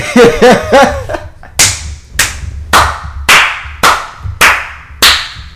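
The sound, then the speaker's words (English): A hand smacks a leg in a series of sharp, loud, evenly spaced slaps following a brief burst of laughter. “This nigga over there smacking his leg and shit.”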